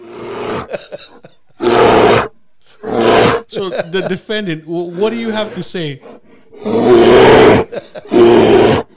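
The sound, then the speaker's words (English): A voice imitates a bear roaring, playing a bear in court in a comic bit. It lets out two gruff, growling roars, then speaks a short line, then gives two more loud roars. “It's a fucking bear. It's not Winnie the Pooh. The bear's in court, and it just sounds like.”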